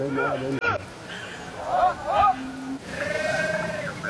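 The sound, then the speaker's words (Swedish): A Palestinian shepherd calls to his sheep in a valley: drawn-out, tonal, bleat-like cries rise and fall in a few separate bursts over a steady background hiss. “En lätt dimma sänker sig över de gröna kullarna och nere i dalen hörs en palestinsk herde kalla på sina får.”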